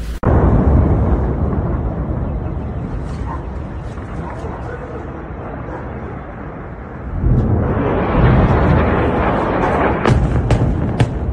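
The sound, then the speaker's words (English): Bombs dropped by Israel explode in Lebanon, a loud sustained roaring rumble with a sharp onset that swells heavier again past the midpoint. “Just look at the size of some of these bombs that Israel is dropping on Lebanon, folks.”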